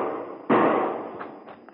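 A sniper's rifle shot rings out in a wartime infantry battle: one loud, sharp crack with a decaying tail, followed by a few fainter, shorter cracks.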